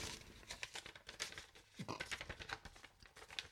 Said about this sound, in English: What is it with these fucking envelopes with the award shows? You can never get them open.